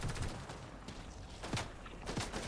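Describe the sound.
Gunfire in a Fortnite Zone Wars match: several sharp bursts of shots crackle over a steady bed of game noise, with the loudest reports near the middle and end.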